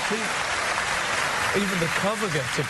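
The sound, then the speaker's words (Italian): Steady applause from an audience, a dense even patter of clapping that holds throughout, with a voice talking over it in the second half. “Persino la copertina merita un applauso, evidentemente.”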